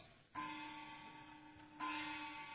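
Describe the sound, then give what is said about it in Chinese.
A work bell in a Chinese stage drama rings with two clear strikes. Each strike sets off a faint, steady, sustained ringing tone that lingers until the second strike renews it. “钟响了”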